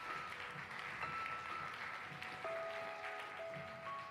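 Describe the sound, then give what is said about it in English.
A church audience applauds its graduates and youth leaders with steady, even clapping that holds at a faint, constant level throughout. “can you give it up for our graduates this year? Hey, would you give a hand to Pastor Ben and Emily for leading our kids, families, and students?”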